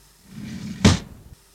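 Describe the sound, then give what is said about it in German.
A door opening in a recording studio: one sharp, loud clack near the middle, preceded by a low shuffling rumble and followed by a few faint rattles as it settles. “Mach die Tür auf, bitte.”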